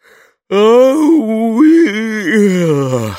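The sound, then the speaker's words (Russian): A dog yawning loudly: one drawn-out, whining moan of about three seconds that wavers in pitch and sinks low at the end, heard alone. “Громко зевнул Бо и постучал хвостом.”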